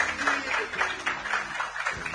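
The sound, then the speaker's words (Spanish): Faint audience applause at a book reading, a quiet, steady patter of clapping with regular bursts throughout. “Muy bien, aplauso para Zulma.”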